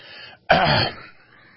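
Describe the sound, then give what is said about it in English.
Someone clears their throat in one rough, raspy burst of about half a second, then trails off into faint breathy noise. “Let me clear my throat, too.”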